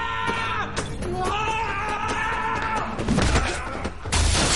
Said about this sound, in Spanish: Atraviesan una cristalera.